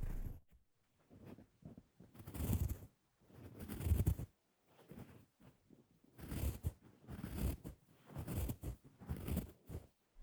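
Ear cleaning as earwax is scraped out: repeated crackling, scratchy scraping bursts in uneven clusters with brief pauses between them, alone without talk.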